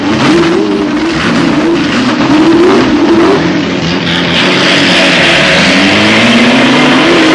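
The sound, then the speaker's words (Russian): A racing car speeds along a track while being tested at maximum loads and speeds. Its loud, continuous engine roar wavers in pitch and climbs toward the end, with no voices. “гоночная машина несется по трассе.”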